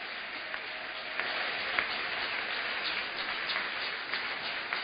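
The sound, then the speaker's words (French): A church audience applauds and cheers the Lord during a Sunday morning service, producing a steady, dense wash of clapping that stays fairly faint and even throughout. “Est-ce que nous pouvons encore acclamer le nom du Seigneur?”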